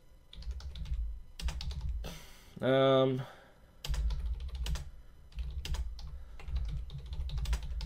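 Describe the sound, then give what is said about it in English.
Typing on a computer keyboard: bursts of quick, dense key clatter separated by short pauses, with a brief loud buzzing tone breaking in midway. “Now I gotta type this thing out.”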